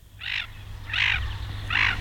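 Three harsh, rasping calls of a common bird of unknown species, evenly spaced and fairly loud, over a steady low hum.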